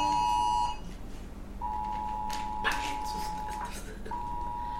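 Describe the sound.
Emergency alert tone sounding on phones during a sermon: a steady, piercing high beep held in long stretches broken by short gaps, ringing over a faint background.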